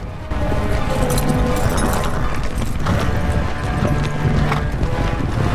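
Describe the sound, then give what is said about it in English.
Horses gallop into a village carrying mounted men, a loud, continuous rush of rapid clip-clop hoofbeats that stays dense and steady throughout. “Suddenly, Sheriff's men on horseback gallop into the village.”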